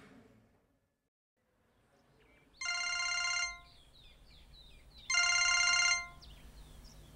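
An early-morning telephone call rings twice: two bright, buzzing electronic trills, each lasting under a second, separated by a short pause over a quiet background.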